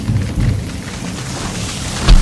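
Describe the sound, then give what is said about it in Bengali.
Heavy rain and thunder on a stormy night with strong wind: a steady rushing wash with low rumbling swells and a heavier thunder boom near the end. “সে রাতটা ছিল দুর্যোগের, তুফান চলছিল জোরে, ঝড়ের চোটে গাছ মরমর করে ভেঙে পড়ছিল।”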